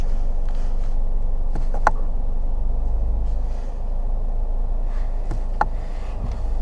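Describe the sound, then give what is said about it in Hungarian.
A car engine idles with its revs raised slightly, giving a steady low hum that lacks a deep, throaty note, with a few faint clicks and small knocks scattered over the drone. “Itt nincs az a öblös búgás. De megemelte az alapjárat. Fordulatszámot megemeli picit.”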